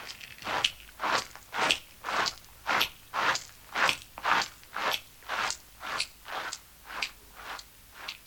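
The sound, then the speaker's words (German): A small soil creature chews a bitten-off piece of leaf, many crisp crunching bites repeating in a steady, even rhythm, each a short moist crackle, with no voices. “Er hat nämlich gerade eben ein ordentliches Stück aus dem Blatt herausgebissen. Das zerkaut er jetzt, mitsamt der Bakterien und Urtierchen, die da drauf sind.”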